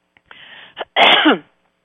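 Throat clearing, a few rough, breathy rasps that build to one long, loud, gravelly burst before fading out.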